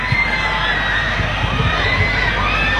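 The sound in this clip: Children shouting and cheering in a crowd at a public gathering, a dense and steady roar of young voices that fills the whole stretch without letting up.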